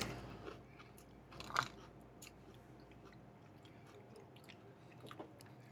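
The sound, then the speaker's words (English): Faint chewing while someone eats a split-open cream-filled cookie: soft, moist mouth sounds with one sharper crunch partway through and a few quieter bites later. “But let me do the split one open and just take the cream to the face, which is the next step in my cookie eating, cookie evaluation program.”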